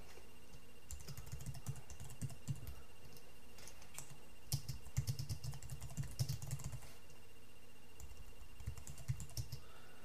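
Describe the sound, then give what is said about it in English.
Quiet, rapid clicking of computer keyboard keys as a short message is typed, coming in three bursts separated by brief pauses. “And I'm just going to type this little message here.”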